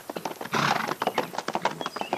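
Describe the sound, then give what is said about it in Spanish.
Hooves of a ridden horse clip-clop in a brisk, even rhythm of many sharp knocks, with a denser, heavier patch of thuds early on before the steady beat resumes. “hizo traer un caballo. Montó en él y se dirigió en busca del joven pastor.”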